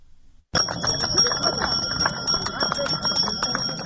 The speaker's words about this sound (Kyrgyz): Биринчи коңгуроону сыңгыратып аткан кичинекей